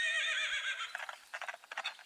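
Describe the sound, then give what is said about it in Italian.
A unicorn galloping away: a high whinny, then a quick run of hoofbeats that sound like a horse's. “E scomparve al galoppo.”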